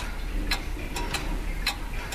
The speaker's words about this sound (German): So eine Standuhr aus Holz gab es auch im Wohnzimmer meiner Großeltern. Mein Großvater hat sie aufgezogen.